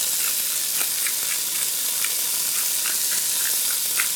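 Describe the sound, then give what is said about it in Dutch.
Oil sizzles in a heated frying pan, a steady, bright hiss dotted with small crackles and pops, continuous and fairly loud. “Ja, wat ik nu aan het doen ben, ik ben nu even de pan aan het opwarmen. Wat olie in de pan gooien. Ik voel dat de pan aardig warm wordt.”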